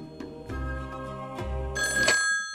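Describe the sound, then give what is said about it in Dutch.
A telephone rings at the reception of a holiday cottage park, its electronic tone sounding in loud, repeated bursts with no talk over it. “werd Agathe gebeld door de meneer uit huisje De Koperwiek.”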